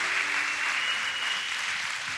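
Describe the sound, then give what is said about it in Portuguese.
Audience applause at a Spanish-language church service, a dense, steady clapping that fills the whole stretch at even loudness with no voices standing out. “Con un aplauso que se le caliente la mano.”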